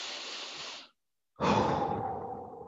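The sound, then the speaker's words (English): A slow deep breath taken during a sermon: a steady, airy inhale, a brief silent pause, then a longer, fuller exhale that gradually softens, with no talking. “So would you do that with me? One, two, three. Let's take a deep breath.”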